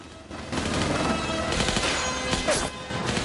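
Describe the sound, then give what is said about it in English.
Machine-gun fire from a gunner on board a helicopter, a dense rapid rattle of shots blending into a continuous roaring burst that holds steady and loud, with a brief dip near the end. “A man on board the chopper shoots back with a machine gun.”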